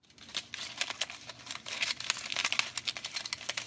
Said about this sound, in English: Can you hear that? That is aluminum foil. Tin foil is really great stuff for making all kinds of sounds.